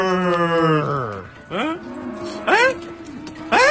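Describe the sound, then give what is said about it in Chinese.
Cattle mooing, imitated by a human voice: one long, low moo followed by three shorter calls with rising, swooping pitch, moderately loud and evenly spaced. “哎，这牛干嘛都跑了呀？ 别跑啊！我的牛，老先生，都是你干的好事儿。你看，你看，你把我的牛都给惊了。”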